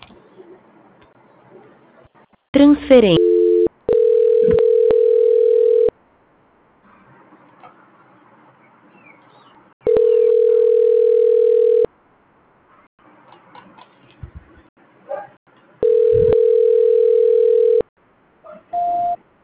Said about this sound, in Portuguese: Deixa eu transferir logo então.